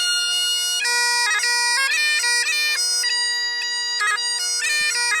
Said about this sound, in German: Aber wir können mal ganz kurz reinhören, wie überhaupt ein Dudelsack klingt.